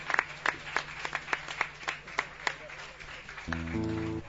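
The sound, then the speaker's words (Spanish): Rhythmic clapping for a pair of dancers at a folk music gathering: many steady, evenly spaced claps, then a voice comes in near the end. “El aplauso para los bailarines, qué pareja.”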